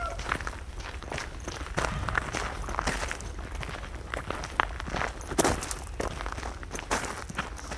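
Footsteps of a person walking along open fields: many soft, evenly paced steps that are fairly faint and continue for the whole stretch, with no talking.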